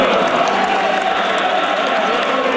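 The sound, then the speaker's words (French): Party supporters at the Coalition Avenir Québec general council closing in Lévis cheer and applaud to welcome Christine Fréchette. The crowd noise is dense and sustained, with steady clapping and shouting all the way through. “Christine Fréchette est accueillie par ses militants sur une ritournelle sportive.”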